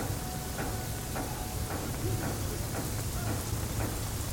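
Rain pours down steadily at a pier, a dense continuous hiss with faint scattered patters, even in loudness throughout and with no voices.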